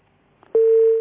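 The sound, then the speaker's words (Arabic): A telephone dial tone sounds after a line is cut off: a few faint clicks, then a loud, steady single-pitched hum held for about half a second before stopping. “طيب الخط قطع.”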